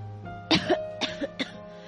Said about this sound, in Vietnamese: Tôi ho sặc sụa, thiếu chút nữa là tắt thở.